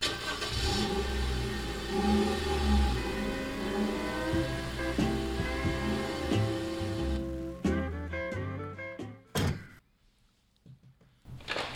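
A family car's engine hums steadily as the car gets underway for a two-hour drive. Toward the end the hum drops away, a few heavy door thunks follow, and the sound settles into a quieter stretch.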